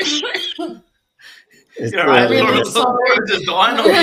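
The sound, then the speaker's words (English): Coughing from someone recovering from COVID: a few rough, throaty cough bursts at the start, a brief pause, then a longer voiced stretch of talking. “Sorry, I had COVID the other week, and yeah, it's given me a pretty bad cough.”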